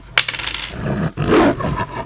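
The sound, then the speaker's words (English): A wolf from a pack lunges in attack during a tabletop role-playing game, a rough, snarling roar with a sharp onset, swelling again in a second harsh surge, heard alone. “One of the wolves in the pack jumps up and tries to attack you.”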